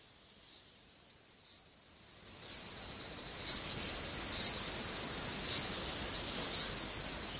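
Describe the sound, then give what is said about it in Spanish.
Cicadas singing in a Japanese summer: a dense, steady high-pitched buzzing drone that swells rhythmically about once per second, growing louder and fuller partway through and continuing without pause. “Los veranos de Japón no son veranos sin la banda sonora del incesante canto de las cigarras. Se escuchan por todas partes, tanto en las zonas rurales como en las ciudades.”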